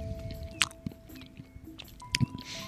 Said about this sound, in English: But enjoying this delicious popcorn.